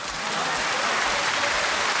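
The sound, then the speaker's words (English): Applause from an audience, a steady dense patter of many hands clapping at even loudness throughout, with no voices standing out. “A round of applause to that man out there.”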